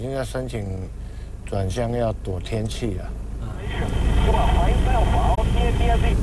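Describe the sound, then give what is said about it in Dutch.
A passenger airplane on a flight from Taidong to Songshan in Taipei passes overhead, its steady, broad engine roar swelling in after a person talks and then holding loud to the end. “Een vliegtuig van Taidong naar Songshan in Taipei is dat.”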